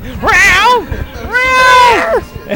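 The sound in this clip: A person imitates a cat meowing with two long, drawn-out meows, each bending up and then down in pitch. The second call is longer and steadier than the first.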